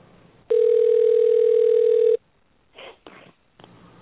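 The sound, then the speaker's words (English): Telephone dial tone heard while placing a call: a loud, steady hum lasting under two seconds, then cut off and followed by three short dialing tones. “I'm going to dial up Mr. Garvin here and see if we can't get him on the line with us.”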